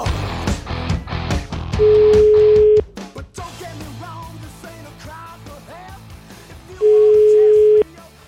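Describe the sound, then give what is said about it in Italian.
Ringback tone of an outgoing telephone call: two steady, mid-pitched tones, each about one second long and roughly five seconds apart, with voices talking before and between them. “Giulietto Chiesa, chiamiamo”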